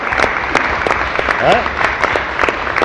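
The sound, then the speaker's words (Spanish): Applause from a crowd for a female government minister in Venezuela: dense, steady clapping that fills the whole clip at a fairly even loudness, with a brief voice heard amid it near the middle. “Un aplauso a la ministra Almiranta.”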